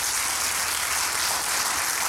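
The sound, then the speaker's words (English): Applause from a church audience clapping their hands during worship, a steady dense wash of claps that stays at an even loudness throughout, with no voices heard over it. “Clap your hands. Come on, everybody.”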